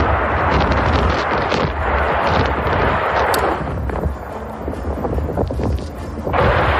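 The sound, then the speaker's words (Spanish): Bombs and missiles exploding in the war in Ukraine, heard as a loud, continuous, rumbling roar with a dense blast-like texture and no voices. “demasiados meses con un mismo sonido. Las bombas y los misiles.”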